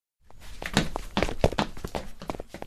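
Several people run off on foot: a rapid, irregular run of many hurried thuds and taps that starts suddenly and stays fairly faint, with no voices.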